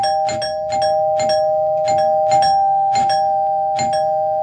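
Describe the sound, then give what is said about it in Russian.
A long, loud doorbell ring from the front hall: a steady electric tone held throughout, struck by many sharp metallic clangs at a fairly regular beat, with no talk. “Но в это время из передней послышался громкий, очень длинный звонок.”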